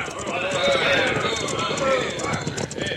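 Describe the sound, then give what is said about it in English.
Galloping horses of a fast-approaching posse in a Western radio drama, a dense, continuous drumming of hoofbeats that keeps up steadily through the whole stretch without letup. “Riders coming fast. Go there, unless I'm very much mistaken, those riders have the earmarks of a posse.”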